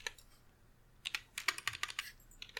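Typing on a computer keyboard: a quiet lull, then a quick, faint run of many crisp keystrokes in an uneven rhythm that continues to the end.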